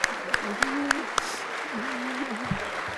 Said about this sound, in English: He got a warm welcome from U.S. lawmakers.